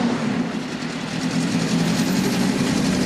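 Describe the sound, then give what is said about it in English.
Engine of a modified Porsche 924 speeding round a racetrack, a steady loud roar over a low droning hum that holds constant throughout. “speeds round a racetrack alone in a modified Porsche 924”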